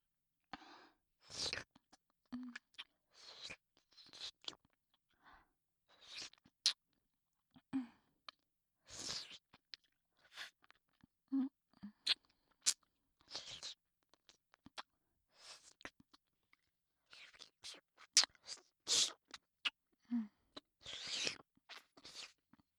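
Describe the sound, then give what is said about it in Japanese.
Quiet, wet licking and sucking of a grape-flavoured candy close to the ear: many irregular sticky smacks, slurps and small tongue clicks, scattered with short silent pauses. “この行為の良さは一切わからぬので、そのうち同じように、わらわの耳元で、飴を舐めてもらおうかの。”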